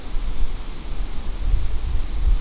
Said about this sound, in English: Am I in a tornado? I'm trying to hide from the wind. I'm hiding behind a tree.